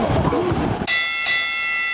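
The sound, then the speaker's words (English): A bell rung on a sports talk show after a football game pick gives a sharp strike, then a bright, sustained ringing tone that holds to the end, following a short burst of noise. “do we ring the bell after every game? I know that we ring the bell for every breakout”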